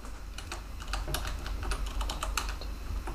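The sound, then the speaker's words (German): Rapid typing on a computer keyboard while notes are taken, with many quick, uneven keystroke clicks running steadily throughout and no voices. “Sorry, ich schreibe gerade mit für die Show Notes.”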